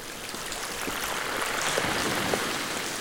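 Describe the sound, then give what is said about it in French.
Water rushing into someone's ears: a steady, dense hiss of flowing water with a muffled, even wash that holds at a constant level throughout. “L'eau pénètre ses oreilles.”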